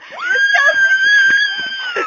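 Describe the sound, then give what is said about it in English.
A woman screams while jumping: one sustained, loud, high-pitched cry that holds a steady pitch for about two seconds. “Or the constant screaming. No, she's not being attacked.”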